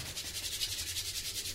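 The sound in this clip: Hands rubbing together make a fast, steady series of dry, hissing friction strokes. Many even pulses repeat at a quick rhythm, moderately loud and heard alone without talk.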